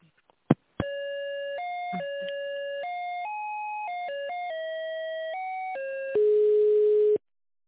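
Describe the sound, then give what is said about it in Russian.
A phone's electronic ringtone plays a melody of clean stepped tones that shift up and down in pitch for several seconds, ending on a louder, buzzier lower tone. A couple of sharp clicks come first. “Опять ко мне звоночек пришел.”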